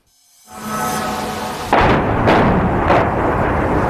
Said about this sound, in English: The moment of impact in yet another round of deadly Russian strikes.